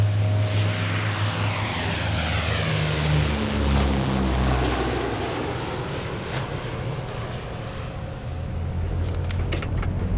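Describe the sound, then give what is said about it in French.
A Fairchild airplane takes off with a loud, sustained engine roar and sweeping tones, accompanied by a metallic rattle that grows sharper near the end. “Après quelques atermoiements, à 14h18, le Fairchild a donc redécollé.”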